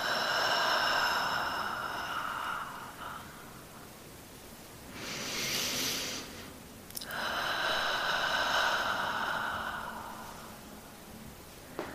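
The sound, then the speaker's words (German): Slow, deep meditation breathing, drawn in through the nose and let out through the mouth, heard as a couple of soft, airy breath swells over a steady, quiet tonal background. “Und dabei tief durch die Nase ein und durch den Mund ausatmen.”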